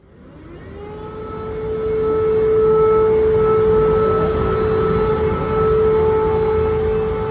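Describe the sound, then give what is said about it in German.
An air raid siren sounding in Ukraine swells up at the start, then holds a loud, steady wailing tone with higher overtones. It sounds alone with no voices. “Es ist ein Ton, der in der Ukraine alle begleitet, seit jetzt 4 Jahren schon. Du hast ihn in deinen 10 Tagen in der Ukraine mehrfach gehört. Magst du uns ein bisschen erzählen, wie war das, als du das erste Mal den Luftalarm gehört hast”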